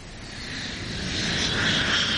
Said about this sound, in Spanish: En un pequeño aeropuerto, un jet aterriza.